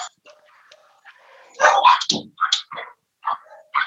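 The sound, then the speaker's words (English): Two dogs bark at home as someone comes to the door, letting out a burst of loud, sharp barks and yips after a quiet start, with several further separate barks following. “I apologize for my dogs.”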